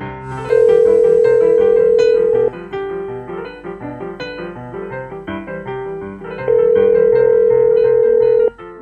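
Telephone ringback tone while a call goes through: two long, steady beeps of about two seconds each, separated by a pause, heard over continuous background music.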